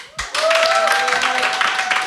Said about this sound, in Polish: więc ja bym jednak poprosił dla pani Barbary spontaniczne brawa